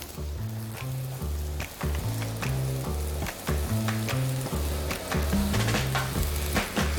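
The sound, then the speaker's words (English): Green and red bell peppers, squash and onion sizzle on a grill, giving a dense, steady crackle and hiss that carries on unbroken for several seconds with no talking. “and then we're gonna add some vegetables, some bell peppers, green, red bell peppers, some squash, and some other little vegetables to go on top, and onion.”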